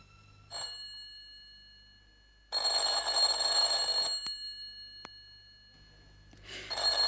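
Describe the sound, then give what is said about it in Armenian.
A telephone bell rings in bursts of bright, metallic trilling: a brief burst, a long sustained ring, then another ring starting, with quiet gaps between. “Հեռախոսն է, ձայն տվեք Եվային, Սաթենիկ, ձայն տվեք։”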